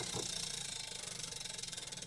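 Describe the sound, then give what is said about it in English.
A prize wheel spins round and round, giving a faint, fast, steady run of ticking clicks with an even rhythm and no clear slowdown. “Wheel spin in the back corner here, going around and around she goes and stops on a fact.”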